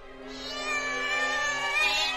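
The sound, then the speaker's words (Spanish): A startled female cat lets out one long, drawn-out meow that holds steady and loud for the whole stretch, wavering a little in pitch, with no other sounds. “Sobresaltada por tu aparición, la gata arquea el lomo y lanza un maullido y se abalanza sobre vos con las garras extendidas.”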